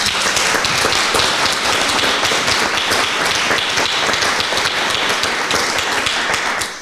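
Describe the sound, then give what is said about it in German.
Dense, steady applause greets a guest, a Saxon state minister, at a public event. Many overlapping claps hold an even, loud level before tapering off at the very end. “Applaus bitte.”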